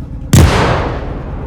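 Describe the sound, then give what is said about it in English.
An explosive burst as a swollen carcass blows apart during a parade: one sudden, loud, sharp-edged blast followed by a long, rumbling decay that fades slowly. “Then, the carcass exploded.”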